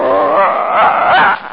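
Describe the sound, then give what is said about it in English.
A little dog growls and whines in a loud, continuous, rough vocal sound, held for over a second before tapering off. “It's just a little dog.”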